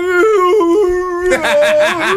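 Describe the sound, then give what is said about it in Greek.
A dog howls as if chanting, heard from a played video: a loud, tuneful howl stepping between a few pitches, then breaking into a wavering, pulsing tone. “Πώς ψέλνει ένα σκυλί.”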